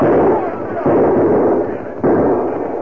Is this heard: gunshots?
yes